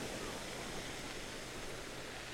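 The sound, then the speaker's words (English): Sea waves wash over a pebble shore as a steady, even rushing hiss. The sound is fairly soft and unbroken, with no clear surges or single pebble clicks. “Sound of the waves coming back up and then going back down. And all the pebbles being moved by it.”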